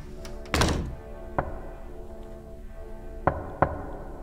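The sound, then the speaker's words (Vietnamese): Knocking on a house's back door at midnight: several dull, wooden thumps at irregular intervals, the first the loudest and the last two close together, over a quiet background. “Du nghe đâu đó có tiếng gõ cửa ở phía sau hè vọng lên. Tiếng gõ cứ đúng 3 hồi rồi dứt.”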